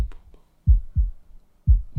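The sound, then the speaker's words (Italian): A heartbeat sound effect gives a few deep, muffled low thumps in lub-dub pairs, spaced in a slow, even rhythm with quiet gaps between them. “Metti il boom boom del cuore.”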